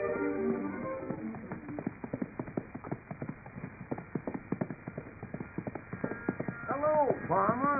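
Hoofbeats of a ridden horse heading down to a lumberyard: many steady, rhythmic clip-clops, fairly loud and continuous throughout, with a thin, band-limited tone.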